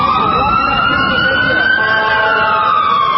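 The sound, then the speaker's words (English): Police sirens wail during a chaotic street protest, a loud, sustained tone that climbs slowly in pitch and then eases back down, over a continuous rumble of traffic. “You can hear the police alarms going off as chaos reigns.”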